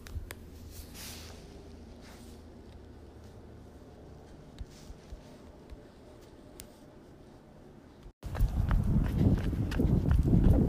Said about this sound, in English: I've just started my run